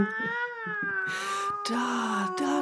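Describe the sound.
A cat meows in long, drawn-out, high wavering cries that slide slightly downward, with scratchy rustling bursts and brief louder noises between and over the calls.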